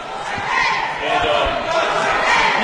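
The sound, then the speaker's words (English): A basketball dribbled near midcourt in a Lindenwood college game gives faint repeated low thumps, largely buried under loud, steady crowd noise in the arena. “Charles just dribbling it out near midcourt right now.”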